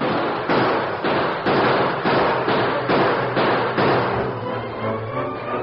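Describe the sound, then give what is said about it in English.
Gunshots crack in a rapid string during a Western-style fight, as a gang of cattlemen's riders fire on homesteaders charging toward them. Many loud, evenly spaced blasts follow one another about every half second with no pause, and no voices are heard. “Blanchard's men are shooting at them, and they don't give a hoot”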